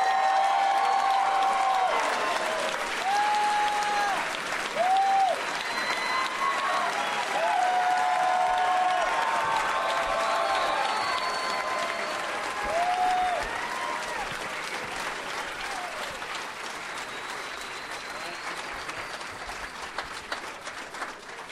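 An audience applauds as three favorite guests are welcomed onstage. Steady, even clapping starts full, then gradually softens and thins over a long, sustained run.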